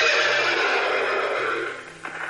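Horses neigh in terror, a loud, bright, sustained whinny that slowly fades, then a shorter cry breaks in near the end.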